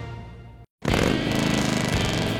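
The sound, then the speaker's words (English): A Harley-Davidson motorcycle engine roars loudly, drops briefly to silence, then returns as a sustained, throbbing rumble with a pulsing low beat. “There's nothing like the sound of a Harley and the feel of the open road, and knowing the bike beneath you is yours.”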